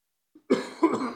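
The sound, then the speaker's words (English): Two hoarse coughs from one person in quick succession, preceded by a faint throat sound, fairly loud and heard alone. “Excuse me for the coughing.”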